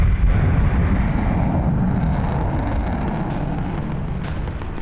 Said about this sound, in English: Missiles away. Rolling. And chaff is away.